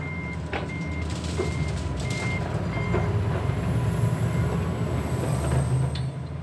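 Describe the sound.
A regional train at the Küstrin-Kietz station gives a steady, loud rumble throughout, with a short high beep repeating at intervals over it.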